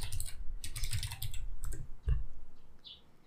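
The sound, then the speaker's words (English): Fingers tap out a search on a computer keyboard, producing quick, irregular bursts of crisp key clicks with a brief pause midway, then a few more scattered keystrokes, all at a soft level. “Yeah, it's not showing up when I type explained.”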